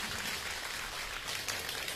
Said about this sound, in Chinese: 哎呀，就是这个掌声差了点儿，哩哩啦啦。